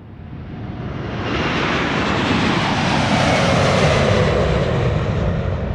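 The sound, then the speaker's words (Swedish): An airplane takes off with a loud, rushing engine roar. It swells over the first seconds, then holds steady and powerful to the end, with no voices. “Till slut lyfter i alla fall planet mot norra Europa.”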